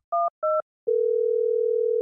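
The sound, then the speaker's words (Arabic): A telephone receiver lifted during a call between Stockholm and Iceland: two short, clear two-tone beeps, then a steady, loud, unbroken dial tone that holds to the end. “لقد كانت مكالمة استثنائية بين ستوكهولم وأيسلندا. أمينة سر جائزة نوبل ترفع السماعة لتزف الخبر السعيد للشاعرة الكندية آن كارسون”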